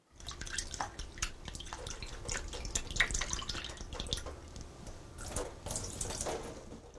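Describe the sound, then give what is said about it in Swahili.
Tap water running while dried raisins are rinsed in a strainer, a continuous splashing hiss with scattered drips, fairly quiet and without speech. “sasa osha zabibu kavu na uzikaushe kwa kutumia chujio.”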